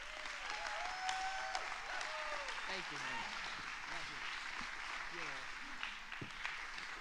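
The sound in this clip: Warm applause as an audience stands to welcome a guest pastor at a church service, with steady clapping and voices calling out and cheering over the sustained din.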